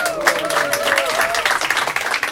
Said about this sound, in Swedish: Tycker vi ska ge oss själva en applåd för.